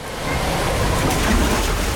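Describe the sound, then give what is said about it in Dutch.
Steady rushing splash of people jumping into cool water at a holiday park pool, a dense continuous wash of water noise that holds at an even level throughout with no voices. “Eindeloos springen in het verkoelende water.”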